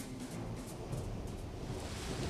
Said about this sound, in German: Draußen entlud sich ein Gewitter